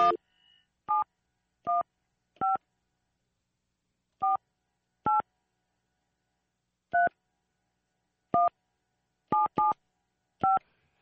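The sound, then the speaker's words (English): A telephone being dialed produces a series of short, bright touch-tone beeps. They are spaced irregularly over silence, with a couple falling close together, and no voices are heard. “All right, then let's try this one. Hello. Dial one.”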